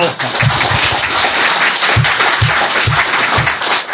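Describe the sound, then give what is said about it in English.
Audience applause at a political talk, a loud, steady wash of many clapping hands that lasts throughout, with a voice speaking over it. “you should clap after I speak, because you have no idea what I'm going to say.”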